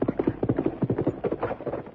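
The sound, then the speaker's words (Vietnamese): A horse gallops fast as its rider whips it on. Its hooves strike in a rapid, steady clatter of many beats with no talk. “Nói xong nàng mỉm cười, giơ roi quất ngựa chạy nhanh.”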